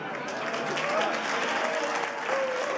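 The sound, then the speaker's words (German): Applause at an art exhibition opening: dense, steady clapping from a crowd that continues without break, with faint voices mixed in beneath. “Und nach wie vor gilt auf der Eröffnung der Applaus dem Kunstliebhaber Harald Falkenberg.”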